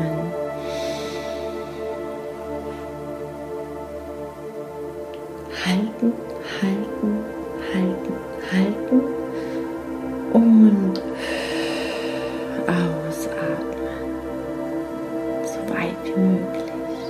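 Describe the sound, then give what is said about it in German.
Deep inhalations during a guided breathing exercise: a few slow, audible breaths drawn in through the nose, soft and airy, spaced apart over a quiet steady background. “Ich mache gleich mit und einatmen.”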